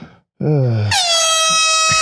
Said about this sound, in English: Yeah, a little bit of air horn there to help out. A little air horn.